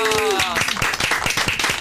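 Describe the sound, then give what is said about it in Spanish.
Rhythmic hand clapping to celebrate a birthday, a voice calling out at the start and then a steady beat of claps continuing under lively talk. “¡Un aplauso!”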